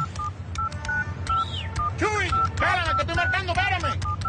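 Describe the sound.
A telephone is dialed with touch-tone keys: a quick run of short, bright beeps sounds while people talk excitedly over them.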